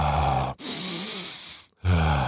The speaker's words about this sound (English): This is one of those deep breath moments,